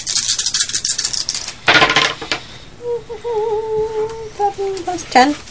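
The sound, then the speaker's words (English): Three dice rolled for weapon damage in a tabletop role-playing game, a quick clattering rattle over the first couple of seconds, followed later by a brief sharp clack. “you roll one of the weapons, damage dice. An extra one. So, I normally roll two, I'm rolling three.”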